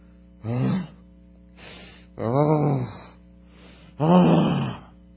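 A person groans in three drawn-out, voiced moans, with fainter breathy sounds in between, pitch sagging within each groan as if in sorrow and hopelessness.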